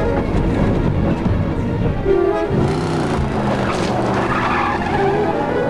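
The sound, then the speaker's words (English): A Cherokee and a pickup truck accelerating hard and racing on a dusty road: a continuous loud engine roar mixed with gritty tire skidding and scraping, steady and undiminished throughout. “As the Cherokee's back tires settle into a ditch, Jeff quickly shifts into drive and floors it. The mustache cowboy hurries back into his pickup and races after him.”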